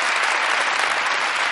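Audience applause during a studio interview about film, a dense, even wash of clapping that runs loud and steady through the whole moment with no voices over it.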